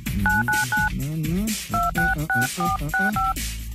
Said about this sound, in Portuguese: Deixa eu tentar ligar para mim.